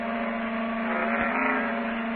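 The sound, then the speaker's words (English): Engine of a red sports car turning into a basement garage, a steady low motor hum with a brief soft thump near the middle, heard alone. “It's 5:25 when the red sports car turns into the basement garage.”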